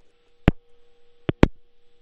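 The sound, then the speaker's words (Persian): Telephone line sound after a call to the studio cut off: a faint, steady low tone hums throughout, broken by three sharp clicks, one early and two close together near the end. “متاسفانه که تلفن آقای حافظی قطع شد”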